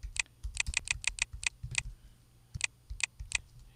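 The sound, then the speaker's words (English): A password is typed on a computer keyboard as a quick run of crisp key clicks. After a short pause, a few more taps follow, quiet against a low hum. “So now I do have to log in, and I'm going to go ahead and type in password here.”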